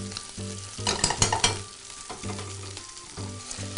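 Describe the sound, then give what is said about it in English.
Sofrito vegetables sweating in olive oil in a pan give off a soft, continuous sizzle. A louder patch of stirring and scraping breaks in around the middle before the frying settles back to a low hiss. “Our sofrito's coming along nicely. Just starting to sweat, starting to lose some of its texture.”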